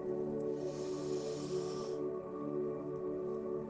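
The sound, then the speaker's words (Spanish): A slow, deep inhale during a guided breathing exercise, heard as a soft airy hiss lasting about a second and a half over a steady, sustained tonal background. “Comencemos. Inhala.”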